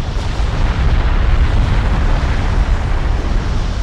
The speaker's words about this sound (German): Eine gigantische Explosion erschüttert die Erde. Sie hat ihren Ursprung auf Krakatau, einer unbewohnten kleinen indonesischen Insel zwischen Sumatra und Java.